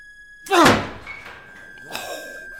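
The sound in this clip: A door is forcefully shoved open, giving one loud heavy thud, then a softer second burst of noise later, with no voices.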